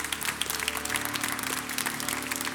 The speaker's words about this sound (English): give the Lord a good hand clap of praise.